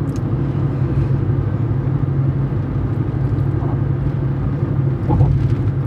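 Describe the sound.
Car driving along a road, a steady low engine and tyre rumble that stays loud and even throughout with no pauses or talk.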